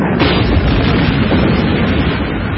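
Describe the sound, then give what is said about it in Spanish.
Explosions in a battle among the ruins of an industrial complex merge into a loud, continuous, dense rumbling roar with no clearly separate blasts. “El polvo de las explosiones cae sobre ellos.”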